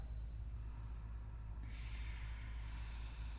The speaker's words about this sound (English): Staying with the rhythm of your breath, staying with the breath that you can hear at the back of your throat.